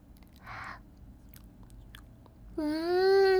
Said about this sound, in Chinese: 我们来切蛋糕吧，让我来尝尝弟弟做的蛋糕是什么味道的。